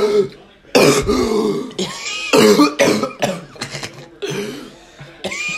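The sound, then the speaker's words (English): A person coughs and chokes in many harsh, ragged bursts, with rasping gasps and strained throat noises between them and short pauses in the fit. “You're actually choking!”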